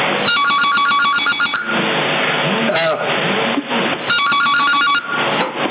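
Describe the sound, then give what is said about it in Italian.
A telephone rings, picked up over a CB radio channel: two bursts of rapid electronic trilling, one near the start and one after a pause, loud against a steady hiss of radio noise. “Ecco il telefono, questi mi stanno già chiamando.”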